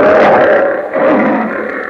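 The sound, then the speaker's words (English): A lion roars loud and rasping, alone, in two swelling surges that sound rough and breathy across a broad range. “As the lion says,”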